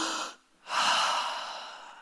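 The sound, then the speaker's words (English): An audience in a room draws a breath together: a short airy rush of breath, a brief pause, then a longer, louder whoosh of breathing that slowly fades over more than a second. “Everybody take a breath for me.”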